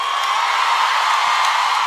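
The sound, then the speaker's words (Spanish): Audience applause and cheering for a cumbia singer, a dense, steady roar of clapping and crowd noise at a constant level for the whole stretch. “El aplauso para Luciano.”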